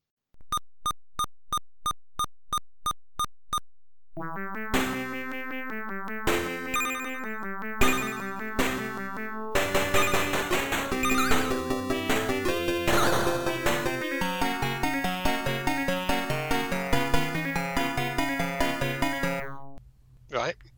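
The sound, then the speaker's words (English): Chiptune arcade driving game music from AY-3-8910 and YM2203 sound chips: a row of evenly spaced high beeps opens, then a busy, loud, multi-voice melody with punchy percussive hits runs on before stopping abruptly. “the very, very capable AY809, and the young upstart, the YM2203.”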